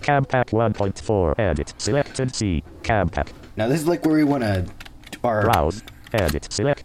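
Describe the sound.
Fingers type on a computer keyboard into the Windows Run dialog, entering a C: drive path. Rapid clicking keystrokes run throughout under a continuous synthetic talking voice.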